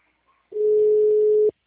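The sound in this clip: A telephone dial tone: one steady, mid-pitched tone sounds alone for about a second, loud and even, then cuts off abruptly.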